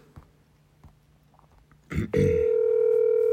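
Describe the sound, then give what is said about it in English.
A phone call placed by speed dial: after a few faint taps and a short rustle, a loud, steady electronic tone begins and holds unbroken to the end. “we're gonna call him up right now for you guys here.”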